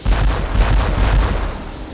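Revolver gunshots ring out as several heavy, booming reports, unevenly spaced, with a rumbling tail that carries between them and slowly fades.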